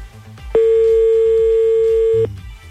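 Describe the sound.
A ringback tone sounds on an outgoing phone call as one long, steady, loud beep lasting under two seconds, with quieter background sound before and after it.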